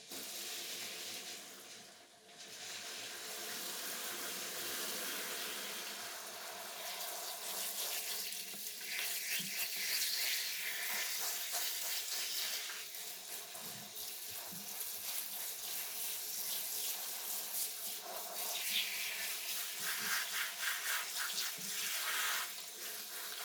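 Running water rinsing hair, a steady bright hiss of flowing water that lasts throughout, with small shifts in splashing intensity and no talking.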